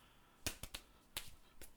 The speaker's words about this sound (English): Let's high five. High five.